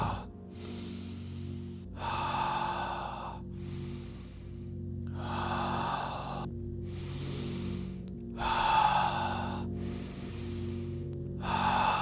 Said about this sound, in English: We're approaching our final breaths for this first round. Deep inhale.